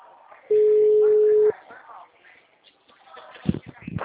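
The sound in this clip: A telephone ringback tone while a caller waits for an answer: one steady, mid-pitched ring lasting about a second, followed by faint noises and speech-like sounds.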